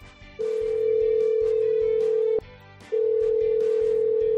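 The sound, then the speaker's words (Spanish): A telephone call to a helpline in Valladolid rings out as a steady, mid-pitched ringback tone, heard as two long tones separated by a short pause, the second running to the end over a faint background. “Una llamada que suena así.”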